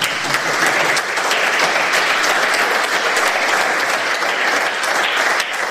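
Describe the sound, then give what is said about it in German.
Audience applause, many hands clapping in a dense, even wash that holds steady for the whole stretch. “einmal bitte alle mit den Händen klappern für den Christian Scheer, der hat nämlich hier uns alles vor Ort organisiert.”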